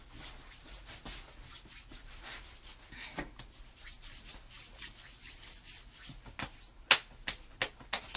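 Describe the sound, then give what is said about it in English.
Hands rub together with hand sanitizer, making a steady, soft, papery friction that continues for several seconds, followed near the end by a few sharp clicks. “Here's some hand sanitizer.”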